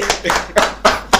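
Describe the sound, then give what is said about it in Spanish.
Clapping from a live audience, called for to greet someone who arrived late, comes as a few loud, sharp bursts of hand claps with brief gaps of noise between them. “A los que estén en vivo. Un aplauso.”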